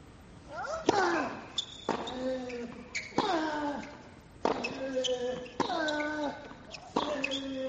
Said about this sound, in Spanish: ¡Wow, qué revés de Medvedev! Ahora sí.